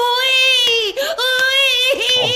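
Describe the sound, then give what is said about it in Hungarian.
A child bawls and squeals in a loud, sustained, high-pitched wail that holds a steady pitch, broken by a few brief catches of breath, with no other sound. “Ha nem hagyod abba az égtelen bömbölést, szólni fogok Fülöpkének, hogy máskor ne jöjjön át hozzád játszani, mert utána nem győzöm a visításodat hallgatni.”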